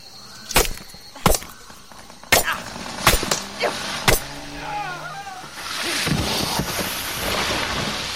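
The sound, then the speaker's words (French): Jungle vines being hacked apart with a few sharp, separate whacks, followed by a long rushing, rustling noise, with a voice briefly heard in between. “Je découpe les lianes”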